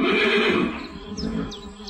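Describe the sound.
A horse neighs in a loud, shaky whinny that fades, followed by a few faint, high squeaking notes.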